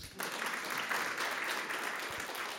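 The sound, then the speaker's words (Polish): Audience applause at a gala begins abruptly and holds as a dense, steady wash of clapping from many hands until the end. “Także brawa.”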